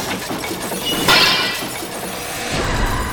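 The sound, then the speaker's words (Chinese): Glass window shattered by a bullet: one sudden, loud, bright crash of breaking glass about a second in, followed by a short shimmering tail of glass debris and a low rumble near the end, with no voices. “一扇玻璃窗被子弹击碎”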